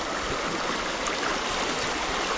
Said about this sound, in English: Way up Pescadero Creek, a place that used to be a spawning area for coho salmon and steelhead trout